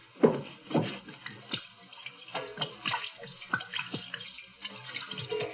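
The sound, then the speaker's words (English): Gin pouring and splashing over a person's hands as they wash them: irregular wet splashes and trickles of liquid, with many uneven bursts of moderate loudness and no talk. “hate to waste this good gin washing my hands, just like old Dr. Kildare.”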